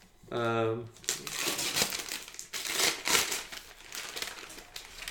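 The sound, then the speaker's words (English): Paper crinkling and crumpling as a wrapped gift is unwrapped. A short vocal sound comes first, then several seconds of loud, continuous rustling and crushing of the wrapping. “Do you want me to unwrap this on mic? Okay.”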